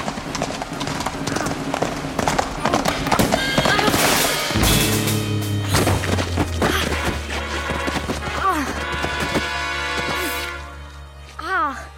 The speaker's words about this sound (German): Irgendwie gelange ich auf das Pferd. Irgendwie halte ich die Lanze und. Ah! Ah! Reiten kann man das nicht nennen.